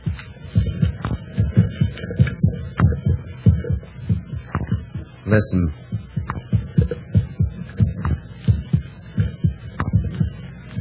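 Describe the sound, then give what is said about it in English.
A human heartbeat, heard as a steady, low, throbbing double thump repeating many times. One brief spoken word cuts in partway through. “That sound is the first and last sound in your memory. It is the pulsating of a human heart.”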